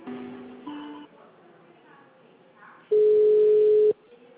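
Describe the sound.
A telephone line tone after a dropped call: one loud, steady electronic tone lasting about a second, preceded by softer, short tonal sounds.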